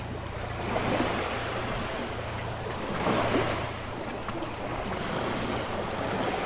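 Sea waves wash against the shore near Naples in a steady, broad hiss, with a couple of fuller swells rising and falling. Wind rumbles against the microphone underneath, and no voices are heard.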